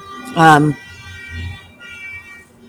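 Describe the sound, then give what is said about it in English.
Angry car horn honking: one loud, harsh, buzzy blare lasting about a third of a second, followed by quieter low rumbling sound. “angry honking.”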